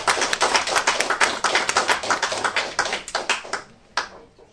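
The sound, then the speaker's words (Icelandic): Applause from a group welcoming new members at a members' meeting: dense, rapid clapping at a steady level that thins out and fades, ending with a few last scattered claps. “Ég bjóði á velkomin og klappa fyrir þér.”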